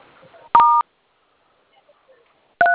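Telephone keypad dialing tones as a star code is entered: a steady, dual-pitched beep, a long silent pause, then a second beep that is cut off at the end.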